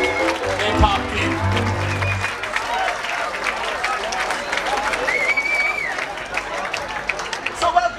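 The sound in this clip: A crowd in the tent at Tønder Festival claps and cheers after a sustained musical tone fades out. Steady applause follows, with voices talking over it.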